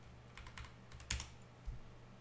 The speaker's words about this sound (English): Let me just type in punishment.